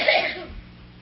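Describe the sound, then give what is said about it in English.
A single short cough bursts out sharply and fades quickly, with no one speaking. “if you're gonna cough, you gotta go in the other room.”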